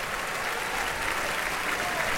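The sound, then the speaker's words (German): Heavy applause from a concert-hall audience for the orchestra and conductor after a long opera evening, a dense, even wash of clapping that holds steady at a fairly soft level. “Lässt hier das Orchester nochmals aufstehen. Mit einem heftigen Beifall, wie Sie hören, hier in der Felsenreitschule.”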